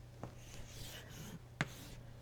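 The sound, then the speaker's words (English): Faint scratching of a pen on a writing surface while a linked list diagram is drawn: soft, continuous strokes broken by two sharper taps. “I'll draw one more for the sake of completeness.”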